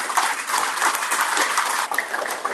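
Audience applause for a man in the boating industry: a dense, steady wash of clapping at even loudness for the whole stretch, with no voices standing out.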